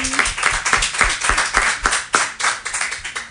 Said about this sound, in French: On peut l'applaudir aussi.